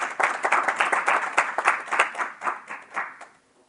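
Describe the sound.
Congregation applauding during a church service after a scripture reading from Jeremiah: brisk, dense clapping from many hands that holds steady, then thins and fades to silence over the final second.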